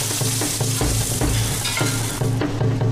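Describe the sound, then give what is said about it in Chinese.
Small fish coated in flour fry in oil until golden, giving a loud, continuous crackling sizzle with recurring low bumps and stirring noises throughout. “鲜活的小杂鱼裹上面粉炸至金黄色，码在锅底，加葱、姜、蒜、八角等，”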